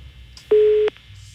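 A telephone line tone sounds while an outgoing call to a debtor is dialed: one steady, even beep lasting well under half a second, loud over a faint background hiss.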